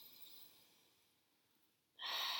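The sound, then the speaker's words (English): A sharp nasal inhalation during a seated guided breathing exercise bursts in as a loud airy hiss near the end, after a faint, fading breath sound and a stretch of near silence. “Let's take three deep inhalations through the nose and exhalations through the mouth. Inhaling through the nose.”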